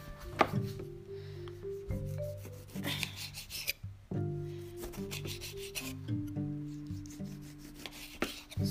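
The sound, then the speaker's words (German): Knife cutting a tomato: rasping, sawing strokes with a few sharp knocks spread irregularly through the stretch, fairly faint, over a steady tonal background and with no talk. “Die Tomate ist geschnitten. Ich mache nur wenig Tomate drauf.”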